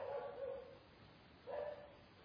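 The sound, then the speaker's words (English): A dog barking, two faint, muffled barks separated by a pause of about a second, heard alone with no voices. “You don't always want the dog to bark. But the dog is really nice. He's just welcoming us here, as he does every Friday evening.”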